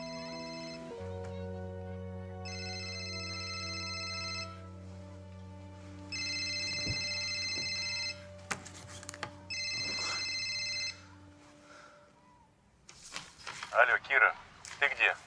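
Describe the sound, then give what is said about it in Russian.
A mobile phone ringtone on a bedside table plays in three steady bursts of bright, high electronic tones over a low, sustained musical drone, followed by brief scraping and rustling sounds. “Звонит мобильник на тумбочке.”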